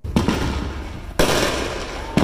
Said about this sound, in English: This is the scene that the city of Oceanside is hoping to stop. Illegal fireworks lighting up in people's backyards and causing a nuisance.